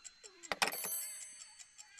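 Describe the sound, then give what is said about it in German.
An alarm clock ticks in a quick, regular rhythm of light, crisp clicks, opened by a short sliding tone and a brief burst of bright, ringing clatter. “Tick-Tack, Tick-Tack. Hey, der Wecker ist rund.”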